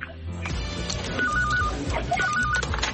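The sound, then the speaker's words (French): A mobile phone rings with two bursts of a warbling electronic tone, moderately loud over a busy background. “Ah, téléphone portable. Nous revenons.”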